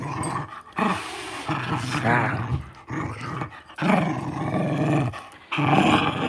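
A two-year-old female dog growls during play, giving repeated rough, throaty bursts of varying loudness with brief breaks between them.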